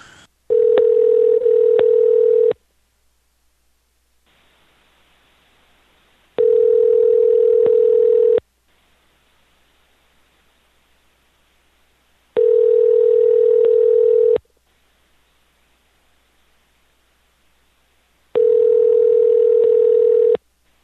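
A telephone tone sounds while a call is being placed: four steady, single-pitched bursts of about two seconds each, separated by roughly four-second silences.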